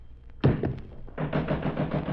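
Knocking at a door: three dull, quick raps in close succession, followed by a denser sustained sound.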